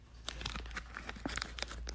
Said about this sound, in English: So let's take a look at the pack. And let's open it.